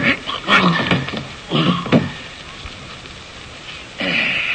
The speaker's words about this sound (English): Look what the dog did to my hand. That fella could get my jaw from a bite like that.